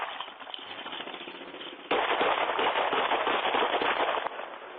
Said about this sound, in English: Shot fired.